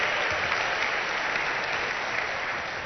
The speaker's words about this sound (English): Come on, put your hands together and celebrate them.